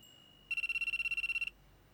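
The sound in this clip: An incoming call on a telephone sets off an electronic ringtone, a bright, rapid trill of evenly pulsed beeps lasting about a second before it stops, against near silence.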